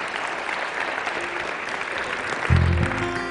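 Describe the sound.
An audience claps in steady, sustained applause to welcome a speaker. The even wash of clapping holds throughout, and a low sustained tone joins near the end.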